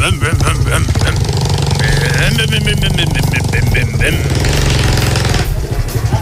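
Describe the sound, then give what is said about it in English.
A small 50cc engine drives a motorised bar stool in a pub, putting and rattling loudly and steadily throughout, with people talking over it. “This is your actual mobile 50cc bar stool, guaranteed to drive you to drink.”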